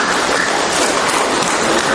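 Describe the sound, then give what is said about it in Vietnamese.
A Catholic audience applauds during a rosary prayer, a loud, dense and unbroken wash of many hands clapping with no pauses. “Rồi, cho tràng pháo tay thưa anh chị em.”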